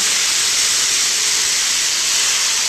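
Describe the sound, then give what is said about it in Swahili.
Boiling water in a pot, heated for cooking ugali, gives a steady, unbroken hiss of steam and bubbling that stays even in loudness throughout, with no voices. “Na sasa tukiangalia upande ule mwingine, maji yetu pia imechemka. Na hiyo ni maji ya ugali.”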